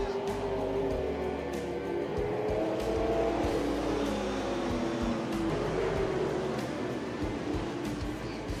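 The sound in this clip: A race car motors down the back stretch of a race track, its engine a sustained throaty roar with a slightly wavering pitch, steady and unbroken throughout.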